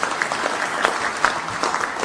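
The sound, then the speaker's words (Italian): Audience applause at an inauguration ceremony, a steady spread of many hands clapping, fairly even in loudness with a few sharper claps standing out. “Onorevole Guido Crosetto, rivolgiamo un applauso e un ringraziamento all'onorevole.”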